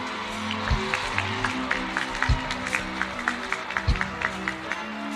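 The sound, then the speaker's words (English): Audience applause for a band's musical director at a live show: rhythmic clapping repeats steadily, with a few low thumps beneath it. “Ladies and gentlemen, please, a big round of applause for our musical director”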